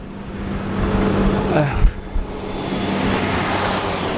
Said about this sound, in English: you can see how noisy it is coming up here. It's a huge truck going down in the middle of the night as I walk out.